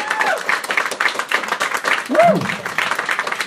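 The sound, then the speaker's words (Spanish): Audience applause erupts at a live fan gathering right after a countdown and unveiling, a dense, steady wash of clapping lasting throughout, with voices mixed in and a short vocal cry partway through. “¡Fuerte aplauso!”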